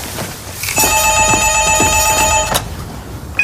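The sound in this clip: A telephone bell rings once in a single sustained burst of bright, shrill, metallic jangling that stops abruptly. The ring stands alone, with no voices.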